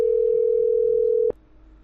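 A single steady mid-pitched ringback tone from an unanswered phone call holds for over a second, then cuts off with a click and leaves only faint line hiss.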